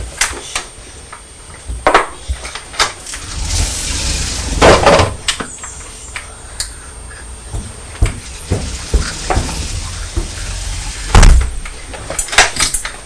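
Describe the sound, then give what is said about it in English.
Knocking and bumping on a patio door: irregular sharp raps and duller thuds spaced unevenly, some much louder than others, with quiet gaps between and no voices. “That sounded like somebody was knocking on the window.”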